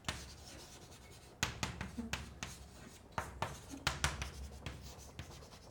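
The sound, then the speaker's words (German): A pen scratches as notes are written down during a chemistry lecture on chemical bonding. Short, faint scratchy strokes come in several bursts with brief pauses between them. “Also ich schreibe mal hier auf”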